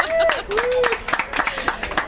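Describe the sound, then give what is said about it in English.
A round of applause congratulating a newly engaged couple, brisk claps from a small group of people under lively voices. “Congratulations, round of applause.”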